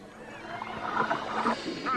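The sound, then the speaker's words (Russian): Dolphins calling, a few high squealing, whistle-like cries rising out of a dense, rushing background wash, fairly loud and with no talk over them. “Черт возьми, эти проклятые дельфины. Что они здесь делают?”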